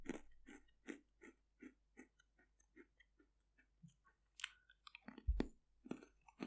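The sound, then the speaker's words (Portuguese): Chewing on biscuits, a quiet, steady run of many rhythmic bites and chews, then a cluster of louder, irregular crunches and mouth noises near the end, with no talk. “Um gajo está sempre assim a comer, um pacote inteiro. É assim, o gajo vai comendo. Estou a comer agora, desculpa”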